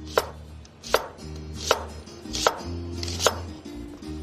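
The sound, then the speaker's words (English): A knife slices food into thin half moons, five sharp, evenly spaced strokes landing about once every three-quarters of a second, each a crisp clack with quiet pauses between and no voices. “we'll just slice these into thin half moons”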